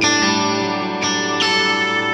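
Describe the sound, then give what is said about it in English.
Electric guitar run through a Lexicon-style reverb effect: three chords struck in turn, each ringing out with sustained, shimmering harmonics and a lush wash of reverb blending into the next. “if I put some of this little Lexicon reverb kind of thing”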